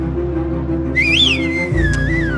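A person whistles a short, wavering phrase that climbs, then dips and settles, heard over a steady low rumble.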